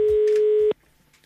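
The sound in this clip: A telephone dial tone on an outgoing call: one steady mid-pitched tone held for under a second, then abruptly cut off, leaving near silence.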